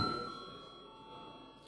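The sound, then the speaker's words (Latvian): A bell rung to call a parliamentary vote gives a quiet, sustained electric ring that holds a steady pitch, starts with a brief struck burst and fades only slightly over its length. “Mums ir jābalso, lūdzu zvanu.”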